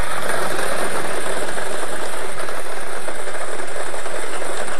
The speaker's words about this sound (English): Let's get these balls spinning.